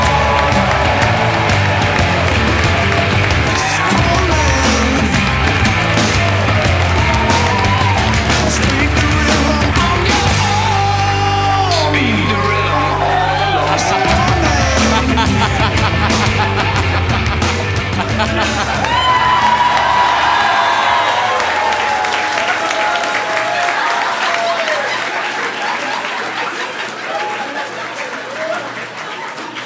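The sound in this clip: A studio audience cheers, whoops and applauds loudly and without a break for the introduction of a co-host at a comedy roast. Shouting voices run through the noise, which eases slightly near the end.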